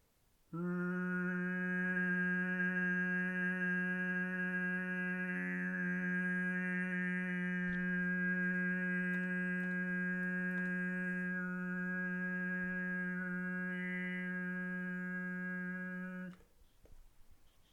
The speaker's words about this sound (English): Let's now create some of the higher frequency overtones, and for this we'll use the same positioning that we used for the O sounds, but with a slight modification.